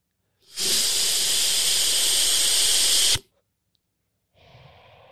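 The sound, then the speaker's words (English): A man's voice imitating a sharp breath being taken away: one loud, rushing hiss that lasts nearly three seconds and cuts off abruptly, followed after a pause by a shorter, fainter breathy sound. “This is what it feels like and sounds like when I meet a woman and I take her breath away.”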